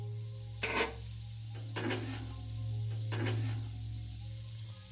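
Food frying in a pan during cooking, a constant bright sizzling hiss with a few brief scraping stirs at intervals and a low steady hum underneath, with no talking.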